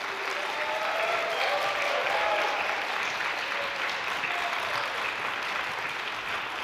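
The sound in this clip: Audience applause welcoming a trio of clarinet, flute and piano to the stage for a concert of music by contemporary women composers: dense, steady clapping that holds at an even level throughout, with no talk over it.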